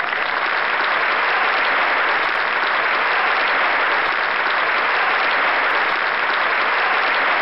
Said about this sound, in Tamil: கலந்துகிட்ட எல்லாருக்குமே என்னுடைய வாழ்த்துக்கள் சொல்லணும்னா ஒரு பெரிய ரவுண்ட் ஆஃப் அப்ளாஸ் வேணும் இல்லையா?